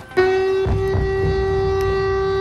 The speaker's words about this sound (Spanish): Sonaban las sirenas antiaéreas en la capital ucraniana.